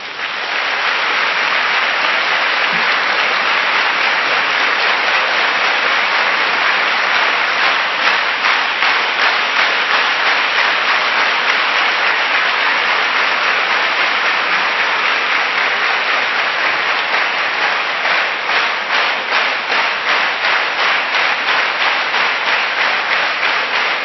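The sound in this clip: An audience applauds the musicians of a symphony performance as they rise. The applause is thick and sustained for over twenty seconds, and single claps stand out more sharply in its later part.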